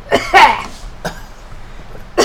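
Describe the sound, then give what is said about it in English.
A person coughs harshly in a few bursts: a cluster at the start, a single cough partway through and another at the end, with no talking between them. “Testing. Coughing. Coughing. Choking.”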